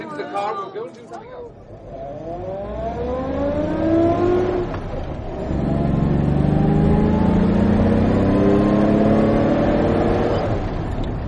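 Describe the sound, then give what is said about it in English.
Car driving off, its engine revving and rising in pitch as it accelerates, easing slightly, then climbing again to a steady, loud drone. “Just get into the car.”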